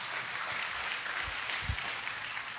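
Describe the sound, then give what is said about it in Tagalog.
Faint, steady applause from a church audience, a soft continuous patter of many hands at low volume throughout. “Yeah, palakpakan natin ang Panginoon, mga kapatid.”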